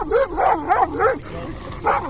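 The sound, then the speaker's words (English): A vicious-looking dog barks at soldiers arriving at mud-brick compounds in Afghanistan: several sharp, tonal barks and yelps come in short bursts, with a longer pause before the last one. “A vicious-looking dog greets the soldiers.”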